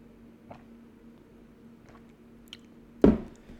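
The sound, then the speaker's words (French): Sipping water from a cup: a few faint wet clicks, then one louder squishy gulp near the end, with no talking. “Attendez, je bois un coup d'eau, ça doit être ça.”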